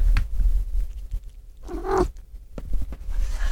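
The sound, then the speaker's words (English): A house cat gives a single short, rising call over low handling noise and a steady hum. “That was our cat. She just said hi.”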